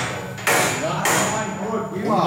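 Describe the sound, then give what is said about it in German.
Two loud, sharp hammer blows ring out about half a second apart at a mining-trades apprenticeship workshop, each followed by a bright metallic ring that carries over a noisy, busy background. “So, hämmern kann ich schon mal.”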